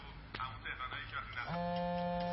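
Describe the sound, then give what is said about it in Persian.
A mobile phone starts ringing partway through after a stretch of talking. The ringtone is a steady, sustained electronic tone with bright overtones. “گوشیت داره زنگ میخوره.”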